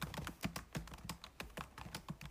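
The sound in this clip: Someone types on a computer keyboard, producing many quick, faint key clicks in an uneven rhythm, with no voices.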